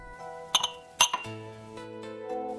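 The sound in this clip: Glasses of liquor clink together in a toast among four friends in a dimly lit room: a few bright, ringing chinks close together, then another short cluster, with faint music playing steadily underneath.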